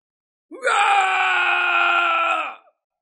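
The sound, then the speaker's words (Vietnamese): An old man roars mournfully in pain as his body burns, one loud, sustained harmonic cry of about two seconds. It rises in abruptly, holds steady and stops, with nothing else around it. “Lão gầm thét một cách thê lương”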